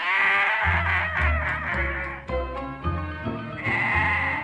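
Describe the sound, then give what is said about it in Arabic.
A sheep bleats repeatedly in a run of loud, wavering, nasal calls that follow one another with only short breaks, and no talk is heard over them. “فين المعزه؟ ده خروف مش معزه.”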